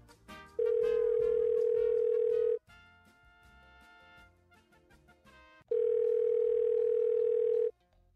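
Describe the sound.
Ringback tone of a telephone line while the caller waits for an answer: two long, steady, loud tones separated by a pause, with music playing underneath.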